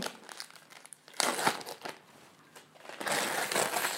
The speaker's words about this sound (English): Why don't you unwrap your present? Let's see.